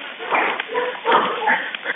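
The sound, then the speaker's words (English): Dogs bark over a muffled, narrow-band emergency phone call, a rapid run of many overlapping barks and yips. Each bark sounds thin and compressed, with no clear gaps between them. “I want to point out the dogs. You can hear the dogs barking.”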